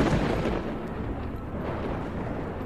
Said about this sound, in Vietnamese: trên trời sấm sét vẫn cứ vằn vẹn lên đùng đùng.